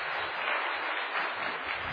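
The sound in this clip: An audience applauds to welcome a pastor, a continuous, muffled wash of clapping that holds steady from start to finish.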